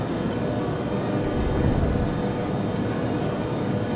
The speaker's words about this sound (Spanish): Señoras y señores, estamos próximos a aterrizar a nuestro aeropuerto de destino.